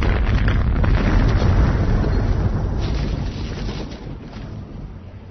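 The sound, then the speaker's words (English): A thermonuclear blast destroying a spaceship in a science-fiction story: a loud, continuous deep roar and rumble that stays dense for several seconds and then slowly fades. “the thermonuclear blast not only obliterated the Fool's Gold, but it also sufficiently altered the trajectory of 2046 Bar.”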